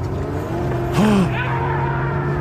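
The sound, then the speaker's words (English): A truck carrying an ice-fishing tent on its back starts to move, its engine a steady low rumble that continues throughout. “What is that, a truck?”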